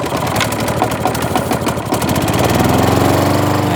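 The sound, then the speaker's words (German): Motorised lawn mower cutting grass, its engine giving a loud, steady, buzzing drone that runs unbroken throughout with no voices. “Die Tage werden länger, der Rasen muss kürzer werden, jedenfalls kürzer als beim Nachbarn. Dieses motorengetriebene Dauergesense kann ganz schön auf die Nerven gehen.”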